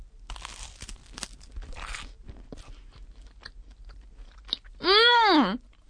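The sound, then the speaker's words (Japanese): Bites of white bread spread with a naturally sweet, sugar-free spread give a few soft crunches and chewing sounds. A loud, drawn-out hum follows, rising and falling in pitch. “では、パンもね、今日は用意してありますので、食パンにつけていただきたいと思います。”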